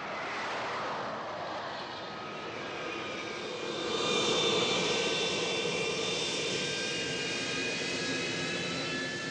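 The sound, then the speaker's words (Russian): Jet roar of a Tupolev Tu-154 airliner coming in to land: a steady, broad rushing whine with thin high tonal lines that swells louder partway through and then holds, with no voices. “Ту-154 заходит на посадку.”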